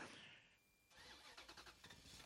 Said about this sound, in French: Eh ben oui, je démarre. On y va, on prend la 4L et c'est parti, on le suit tout de suite.